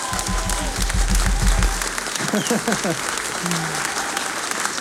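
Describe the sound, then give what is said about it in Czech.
Audience applause, loud and dense clapping that carries on steadily throughout, with voices over it and a burst of shouting or whooping partway through. “Výborně! Zatleskejte si!”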